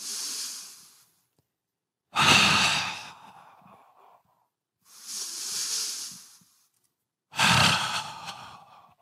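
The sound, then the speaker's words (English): Deep breathing by a person taking a series of slow breaths during an hourly wellness break: four long, airy breath sounds, each swelling and fading, with short silent pauses between them and no talking. “I take 10 deep breaths like this.”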